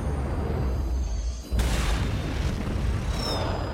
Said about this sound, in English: The pilot shoots up into the air as the plane explodes.